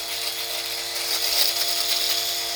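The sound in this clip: Steady electric buzz of a trimmer shaving a face, a continuous mechanical drone whose texture shifts slightly as it moves over the skin.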